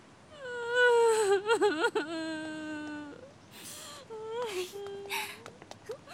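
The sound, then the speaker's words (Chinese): A person crying and sobbing: a wavering wail with shaky, quivering pitch that breaks off, then more whimpering cries at a moderate level. “你还哭啊？哭有什么用啊？”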